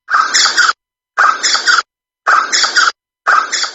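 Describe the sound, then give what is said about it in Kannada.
Harsh, raspy bird alarm calls, given when birds of prey fly over the nest, come in four loud screeching bursts of about half a second each, separated by short silences, with no other sound between them. “ಗೂಡಿನ ಮೇಲೆ ಆಕಾಶದಲ್ಲಿ ಬೇಟೆಗಾರ ಹಕ್ಕಿಗಳು ಹಾರಾಡುವಾಗ ಇವು ಅರಚುವುದು ಹೀಗೆ.”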